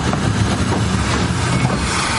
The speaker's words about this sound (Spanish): Otro tren de militares se detiene ante el primero.